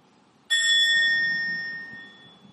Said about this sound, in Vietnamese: Hơi thở vào, hơi thở ra, sau đó mình mới thỉnh một tiếng chuông.